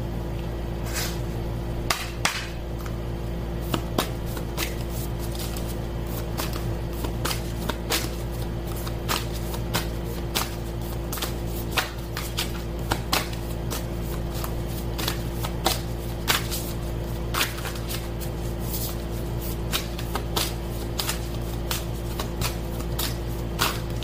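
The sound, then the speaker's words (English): Shuffling a deck of Isis oracle cards, a run of crisp papery snaps and riffles repeating throughout over a steady low background hum, with no voices. “I want to take an oracle card, an Isis oracle card.”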